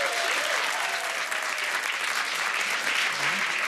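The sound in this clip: Audience applause greets a cosmetic doctor as she is welcomed onto a stage: dense, continuous clapping from a crowd, loud and steady from start to finish.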